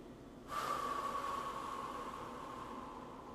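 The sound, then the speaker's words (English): One long breath drawn in through the nose, a sudden rushing airflow with a thin whistling tone that slowly fades over about three seconds, heard alone without talking. “Deep breath in through the nose. And exhale out of the mouth.”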